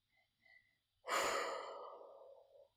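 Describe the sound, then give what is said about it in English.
A deep breath taken to calm down: one long, loud, airy breath swells suddenly and tapers slowly over about two seconds, with a few faint soft breaths just before it. “I got a little hype there for a second, so I needed a breath to create some space.”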